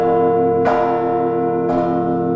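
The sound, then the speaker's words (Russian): A single church bell rings at a cathedral in Krasnodar. It is struck twice, and each loud stroke blooms into a long, rich humming tone that sustains and overlaps the next, with no voices. “Впервые за долгие годы в Краснодаре раздался колокольный звон.”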